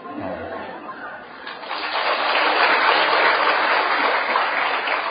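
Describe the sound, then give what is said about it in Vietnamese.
Applause from an audience at a Buddhist teaching talk, starting softly and swelling into steady, dense clapping that holds to the end. “Bộ đúng lắm sao mà vỗ tay vậy?”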